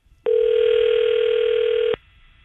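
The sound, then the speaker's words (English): Telephone dial tone heard while placing a call: one loud, steady, unwavering hum that holds for nearly two seconds and then cuts off abruptly into near silence. “let me try to get him on the phone here.”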